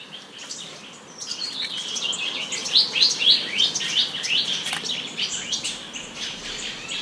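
Melodious bird song: a continuous stream of bright, high chirps and trills with many quick notes overlapping, fairly loud and heard alone without talk.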